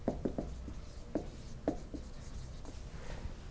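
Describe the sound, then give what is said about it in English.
Quick scratchy rubbing strokes as drawings are erased from a classroom board during a lecture on telescopes, a few short, faint swipes in a row. “erase my fuzzy little stars there”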